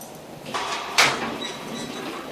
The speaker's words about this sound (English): A guard opens a barred door.